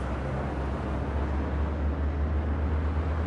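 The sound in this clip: Inside a moving bus, a steady low engine rumble and road noise run on continuously and evenly, with no talk.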